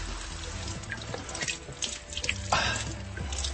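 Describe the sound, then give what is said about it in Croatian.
Naturally carbonated mineral water babbles from a spring near Bijelo Polje in Montenegro, a continuous bright gurgle and splash of running water with small bubbling accents, steady and fairly soft, with no voices. “Ovaj žubor je originalni žubor Bilopoljske nadaleko čuvene kisele vode.”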